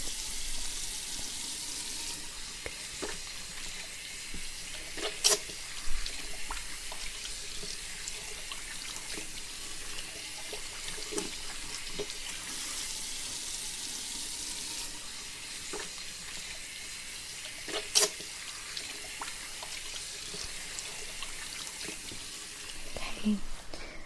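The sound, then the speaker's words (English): Water runs steadily at a hair salon sink as hair is rinsed, a soft, continuous wash with a few faint clicks and taps. “Right, then we'll rinse that out now, okay? You stay nice and still.”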